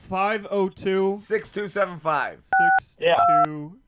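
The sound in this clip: Touch tones as a telephone number is dialed on a keypad: two clear electronic beeps near the end, the second slightly longer, following stretches of talk.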